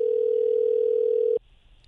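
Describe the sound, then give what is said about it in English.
A telephone dial tone sounds as a single loud, steady, mid-pitched tone, unbroken for about a second and a half before stopping abruptly into near silence. “Let me just dial it here and then I'll read his profile.”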